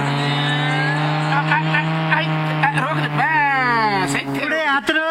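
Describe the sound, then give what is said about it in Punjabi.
Car engine pulling up and stopping at a roadside hotel, a loud steady hum carrying sweeping, whining tones toward the end as the vehicle slows to a halt. “ਉਹ ਲੱਗਦਾ ਉਹ ਕਾਰ ਵਾਲੇ ਪੁਰਜੇ ਤਾਂ ਆਪਣੇ hotel 'ਚ ਆ ਕੇ ਰੁਕਣਗੇ।”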